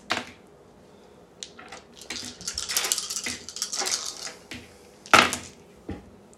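Six-sided dice rolled at a tabletop role-playing game, clattering as they tumble: a sharp click first, a longer rattling stretch in the middle, then another sharp clatter near the end, with no voices.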